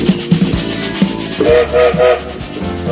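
Train departing with a whistle sound effect: rhythmic wheel clatter over a steady rumble, with a few short, loud whistle blasts in the middle.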